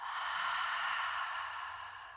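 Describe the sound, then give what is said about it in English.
A deep cleansing breath, drawn in through the nose and let out through the mouth, heard as one long, steady airy rush that tapers off softly at the end. “Let's first take a cleansing breath in through your nose, out your mouth.”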